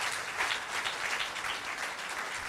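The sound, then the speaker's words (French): An audience applauds to thank two people for their work with a group. Many hands make a dense, even wash of clapping that stays steady and fairly soft, with no talk. “je veux aussi en profiter pour remercier Patrick et Catherine pour si on peut les applaudir”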